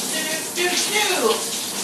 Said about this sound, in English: Alright, sorry, I'm just getting my hair wet. I don't like dry hair when I'm in the shower.